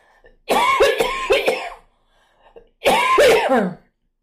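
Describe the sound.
Throat clearing by a speaker, heard as two rough, forceful bursts about a second long each, separated by a short quiet gap, with the second burst trailing off into a lower rasp.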